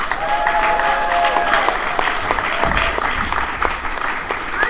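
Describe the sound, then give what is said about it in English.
An audience applauds to welcome a local comedian on stage, dense steady clapping that holds at an even loudness throughout. “I need you guys to help me welcome this next man on stage. He's a very talented local comedian. Put your hands together for Bob Rocky!”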